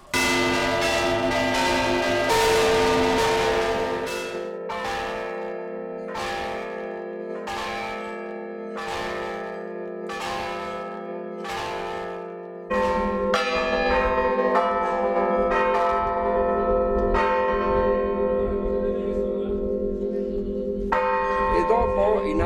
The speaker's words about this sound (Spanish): Campane hanno due cose basiche. Il golpe secco è questo, forte.